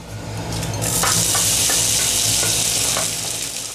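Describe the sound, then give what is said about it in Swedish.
Baltic herring and other ingredients sizzle in a pan, giving a steady, bright hiss throughout with a few soft stirring scrapes. No one speaks. “Vi låter fisken och de andra ingredienserna sjuda i pannan medan vi diskuterar strömmingens vara och icke-vara.”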